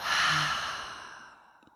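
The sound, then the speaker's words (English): One deep breath is let out through the mouth during a guided yoga breathing exercise. The soft, airy exhale swells quickly and then fades gradually over about a second and a half, heard alone. “Let's take a deep, full breath in through the nose once more. Out through the mouth.”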